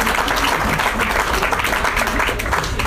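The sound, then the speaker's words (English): Crowd applause for game show contestants and winners, a loud, continuous burst of clapping from many hands, with a few scattered voices mixed in. “Give these contestants a round of applause, everybody. Let's hear it for our winners.”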